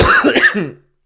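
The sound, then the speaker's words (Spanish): A short, rough throat clearing merging into a cough, one loud burst that breaks off abruptly into silence. “acompañados de toses, quería decir esto, acompañados de toses”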